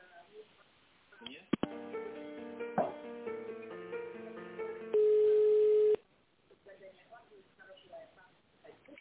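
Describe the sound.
Telephone line tones sound while an office call is transferred, a few seconds of stacked electronic tones ending in a single steady held tone, with thin talk on the line before and after.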